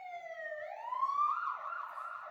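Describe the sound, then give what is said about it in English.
A fire truck siren passing by, a loud wailing tone that sweeps upward, holds high and then eases slightly, sounding alone with no talk. “That oh, I'm wrong. It was fire truck. It was a fire truck, everyone.”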